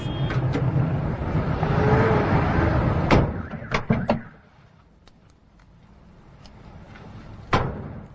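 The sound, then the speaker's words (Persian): A pickup truck's rear gate slams shut over a running engine, with a few sharp bangs. The engine noise then drops away as the truck drives off, leaving quiet, and one more thud comes later. “میسم پشت وانت رو میبنده سوار میشه و میره.”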